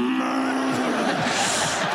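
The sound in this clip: A voice imitates a cow mooing, the look of a cow at a livestock sale: one drawn-out, low, droning call that turns breathy and rough, fairly loud and alone.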